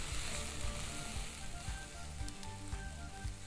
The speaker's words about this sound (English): Oil is hot. Let's add some spring onions. Along with that, some peppers. I've got red, yellow, and green. Green chilies. And let's saute this up.